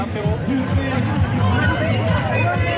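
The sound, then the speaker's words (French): A protest march crowd chanting a slogan demanding money for public hospitals: loud, continuous massed voices overlapping in rough unison, with a background hubbub of the crowd. “Du fric pour l'hôpital public entonné de bon cœur dans ce cortège”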